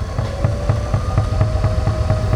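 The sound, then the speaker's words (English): Electric pottery wheel humming as it spins wet clay splashed with water: a steady motor whir with a quick, regular low thumping pulse running throughout, no voices. “Splash it with water, turn on the wheel, let it spin slowly at first, then faster”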